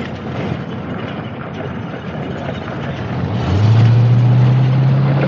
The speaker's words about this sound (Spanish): Conducen por el camino de tierra. En el coche un policía lleva a uno de los detenidos. Detrás le sigue el camión